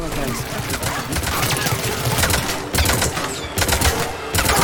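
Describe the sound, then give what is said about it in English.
Rapid gunfire from a turret shooting at the player in a video game, dense clattering bursts separated by short gaps, fairly loud throughout. “Oh, this is the turret that's shooting at me.”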